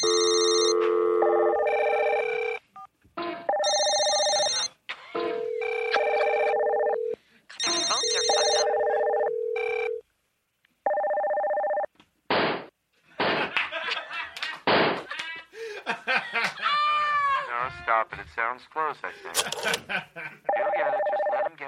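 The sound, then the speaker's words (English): An old-style telephone ringtone sounds in several long, tonal bursts rich in harmonics, separated by short gaps. Voices and some clattering follow once the ringing stops. “That's the old ring. That was the old ringtone.”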